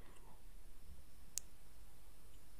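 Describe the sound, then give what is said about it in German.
A computer mouse is picked up and gives one sharp, quick click over a faint, steady background hiss. “Ich habe die Maus wieder angefasst.”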